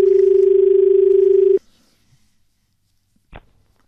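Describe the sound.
A telephone line tone as a call is taken: one steady, low hum-like tone holds for about a second and a half, then cuts off abruptly, leaving near silence and one brief, faint click.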